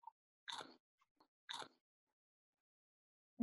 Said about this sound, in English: Okay, I'm going to try curlies. They smell just like peanut butter, so I really hope they taste like peanut butter